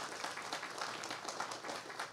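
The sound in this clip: A faint round of applause from a gathering congratulating parents on the birth of their baby daughter: soft, dense clapping that stays steady throughout.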